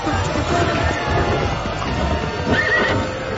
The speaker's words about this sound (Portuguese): A carruagem partiu rapidamente, deixando para trás a multidão de espíritos obsessores